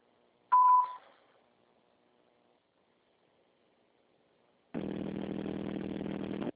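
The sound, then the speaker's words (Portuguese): A single short voicemail recording beep from a phone mailbox, a clear steady high tone lasting under half a second, followed by a few seconds of near silence and then a loud, steady buzzing noise to the end. “Sua chamada está sendo encaminhada para a caixa de mensagem. Estará sujeita a cobrança após o sinal. Após o sinal, grave sua mensagem.”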